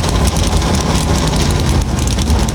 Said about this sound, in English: The engines come to life on the pit lane as the Naval Hornets go blasting by overhead.